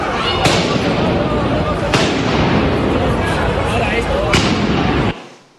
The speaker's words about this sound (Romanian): Dios bendito, han disparado contra la gente, tío.